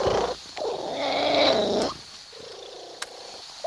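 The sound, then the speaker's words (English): A cat purring with an unusual sound: soft, low rumbling purr cycles in a few long stretches separated by brief pauses, fairly faint and heard alone. “That is the sound of a purring cat.”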